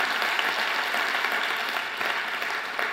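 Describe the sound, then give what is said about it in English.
A church audience applauds to welcome the speaker's wife, with a steady, dense patter of clapping hands that holds at an even level throughout. “Can you give her a hand and welcome her?”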